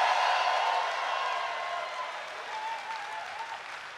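A live show audience breaks into sustained applause, a dense wash of clapping that starts loud and eases off slightly toward the end.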